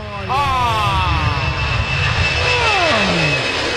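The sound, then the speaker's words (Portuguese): An airplane passes overhead with a loud, steady engine roar, its whining tones sliding downward in pitch as it goes by. “Passou mais um avião, hein? Passou mais um avião.”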